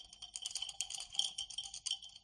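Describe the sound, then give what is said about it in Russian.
Two dice rattle inside a small cup as it is shaken, making quick, faint, irregular clicks and clatters in a busy stream of light ticks. “Калидис потряхивает небольшую чашку.”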